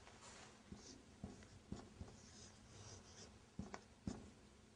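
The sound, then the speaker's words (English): A pen writes a word by hand in Arabic letters, producing quiet scratchy strokes with several small taps as each letter is formed. “But if I write, brother, what did I write down? Akbar.”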